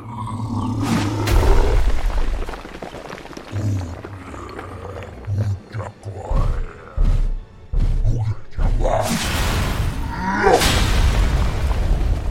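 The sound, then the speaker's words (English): Heavy booming thuds and deep roaring growls of a giant charging to attack, a fantasy video game sound effect; loud and continuous, with many low impacts and roars swelling toward the end. “Even a giant charging to attack.”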